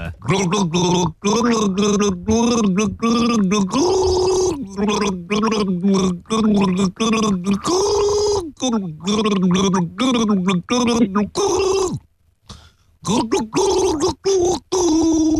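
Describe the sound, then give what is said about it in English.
Someone gargles a pop song, producing continuous bubbling, throaty gurgles shaped into melodic phrases with rising and falling pitch, broken by brief pauses for breath and a longer gap near the end. “I'm gargling a song from an artist who is a daddy.”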